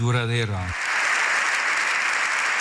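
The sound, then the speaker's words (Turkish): A standing ovation for Pope Leo XIV in Spain's parliament. A voice is heard briefly at the start, then sustained applause takes over and stays dense and even to the end. “Papa 14. Leo İspanya'da Meclis Genel Kurulu'nda konuştu. 7 dakika ayakta alkışlandı.”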